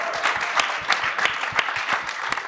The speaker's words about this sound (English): Can we give Charlie a huge round of applause?